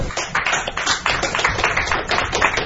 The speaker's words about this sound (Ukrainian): Такое рашэнне прысутнае сустрэлі аплодысментамі.